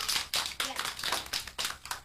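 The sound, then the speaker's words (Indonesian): Hands clapping in praise of a child during a lesson: about eight soft, evenly spaced sharp claps in a quick steady rhythm, faint overall. “Tepuk tangan dulu”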